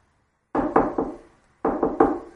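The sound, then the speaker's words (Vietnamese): A bodyguard knocks on a door in two quick sets of three firm raps, separated by a brief pause. “Vệ sĩ gõ cửa.”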